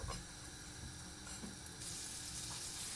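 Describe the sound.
About a tablespoon of butter melts and sizzles in a pan with a faint, steady, crackling hiss that grows slightly brighter toward the end.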